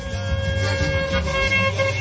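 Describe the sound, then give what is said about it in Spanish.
Many car horns honking together along a busy avenue: loud, overlapping toots and blasts form a continuous wall of honking that stays steady from start to finish. “todo el mundo pitando”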